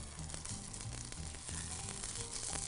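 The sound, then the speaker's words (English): Parsley oil fries in a pan, giving a faint, steady sizzling hiss under soft background music. “So we can see our parsley oil starting to fry nicely over here.”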